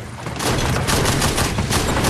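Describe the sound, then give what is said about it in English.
Sustained gunfire aimed at buildings during urban combat: a dense barrage of rapid, overlapping shots that merges into a loud, continuous crackling roar with repeated sharp bursts throughout. “They shoot at the buildings, taking hits all the time.”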